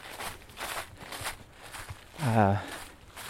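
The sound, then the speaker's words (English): Footsteps of a runner approaching on a sunlit path among trees with golden leaves, heard as steady rhythmic footfalls with a brief spoken greeting over them. “So you see the runner running towards me, backlit by the sunshine.”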